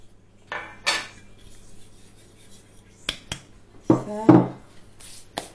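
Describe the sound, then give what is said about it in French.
Almond powder, sugar, flour and salt being mixed in a bowl, heard as a few scattered scrapes and clinks of a utensil against the bowl, with quiet pauses between them. “Donc on mélange la poudre d'amande, le sucre, la farine et le sel.”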